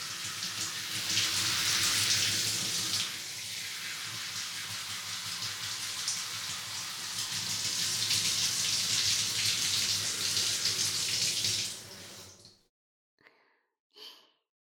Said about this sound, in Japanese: ヘッドスパで使用したオイルをしっかり洗い流しますね。